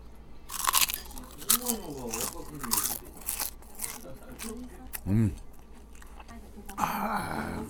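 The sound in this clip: Crispy, crunchy food at a restaurant is bitten and chewed, giving a few loud, brittle crunches among softer chewing, with a person talking in between.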